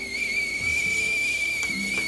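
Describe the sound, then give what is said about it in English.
A steady, high whistle sounds while a cup of Nescafe coffee is being made. It holds one unbroken tone at the same pitch the whole time, alone and fairly loud. “I love this sound of the whistle of my delicious cup of Nescafe, and every morning I wake up to that delectable cup.”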